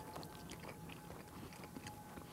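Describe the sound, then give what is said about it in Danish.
Faint chewing and biting of salami, soft moist mouth sounds and small crunches repeating irregularly with no talk. “Skal vi prøve den til noget salami? Ja, lad os tage en gang salami.”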